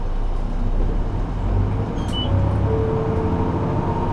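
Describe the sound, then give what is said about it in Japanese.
A bus engine as the bus starts to pull away: a steady, low rumble of motor and road noise with a faint thin tone above it, and no voices. “岩崎バスです 。動きます。ご注意ください。”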